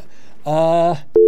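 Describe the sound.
Telephone line tones sound as a caller is put through the board: a buzzing, harmonic tone lasts about half a second, then a sharp click is followed by a loud, steady pure tone.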